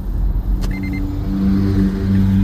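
A car being driven gives a steady low rumble of engine and road noise that swells slightly toward the end, with a brief click early on.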